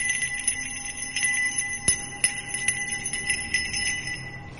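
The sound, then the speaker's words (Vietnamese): A small bell cast of black brass rings in clear, bright strikes beside a well, sounding many sharp metallic hits, one especially loud, with sustained high ringing tones between them and no voices. “lấy từ trong tay nải ra một cái chuông nhỏ, có lẽ được đúc bằng đồng thau đen sao. Thầy bắt đầu rung chuông, vang lên những tiếng lanh lảnh.”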